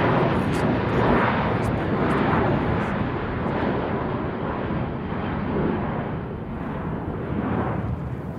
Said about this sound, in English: Jesus, what is that? That was a plane, white, with red stripes. Was that the MH370? Oh my god, it was right on top of us. That was for sure a passenger airline.